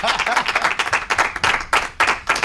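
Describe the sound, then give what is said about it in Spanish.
Audience applause, a dense burst of clapping from a crowd with uneven pulses of loud and slightly softer hand claps, continuing steadily without any talk over it. “Dad un aplauso para rellenar esto y así camino.”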